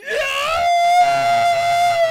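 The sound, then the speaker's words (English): A human voice imitates a cartoon cat's pained scream as one loud, sustained high wail that climbs sharply at the onset and then holds steady for about two seconds. “Tom in Tom and Jerry is like the most amazing screams ever recorded. I thought they were silent. Until he gets hurt. And he goes,”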